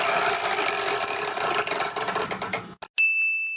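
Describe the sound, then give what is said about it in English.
A big chore wheel is spun, giving a dense, loud whirring rattle of rapid clicks that slow and spread out as it winds down, then stop. A bright, ringing ding follows. “Can you spin that big old wheel that's behind you? Okay, I'll give it a shot here. I'll give it a good... Here we go.”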